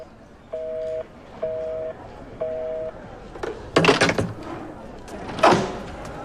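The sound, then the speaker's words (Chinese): Cut-off telephone line on a call to Beijing: three identical steady beeps of a disconnect tone at even intervals, followed by a few loud, clattering knocks. “同志，电话断了，再要一次北京。”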